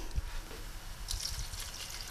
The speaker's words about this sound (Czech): Červené zelí. Teď bych ho podlila troškou vody.